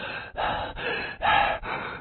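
A wounded man lying on his back gasps and pants for breath: five heavy, rasping breaths in a steady rhythm, alone and without speech, the fourth the loudest.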